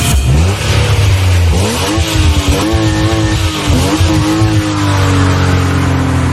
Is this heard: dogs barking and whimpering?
no